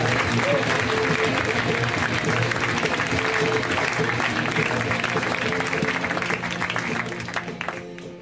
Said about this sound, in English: Let's hear right now for Mr. Nato Green, guys. Give it up for Nato.